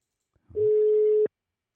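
A single steady telephone tone sounds as a call is placed: one pure, held beep of under a second, preceded by a faint click and surrounded by silence.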